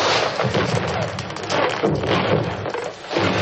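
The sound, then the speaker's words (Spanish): Fireworks rockets fired over rooftops, a loud, dense, continuous mass of bursts and crackles that dips briefly near the end before surging again. “¡Preparado! ¡Fuego! Los cohetes iluminan los tejados con múltiples colores.”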